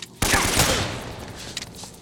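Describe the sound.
Video game AK rifle fire while the character hangs from a ledge: a sharp, loud burst of shots that decays, followed by a few smaller cracks.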